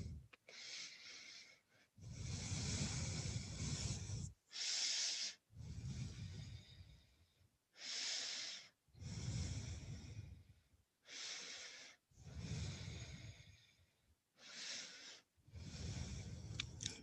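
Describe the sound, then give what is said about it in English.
Slow, deep breathing in child's pose during a yoga session: a long series of faint, airy inhales and exhales with short pauses between them, some breaths longer and fuller than others. “And make your way down to your knees. Child's pose. We'll walk the hands over to the left. Breathe into the right side body.”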